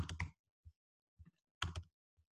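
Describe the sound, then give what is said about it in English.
Typing on a computer keyboard, very quiet: a few short clusters of clicking keystrokes separated by brief pauses. “Looks like I typed chance, but you get the idea.”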